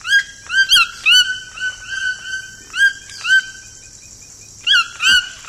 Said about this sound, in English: Could this piercing and cheerful yelp be the same sound you remember from a Saturday morning in your childhood? It's the call of the toucan, the tropical icon and inspiration for Toucan Sam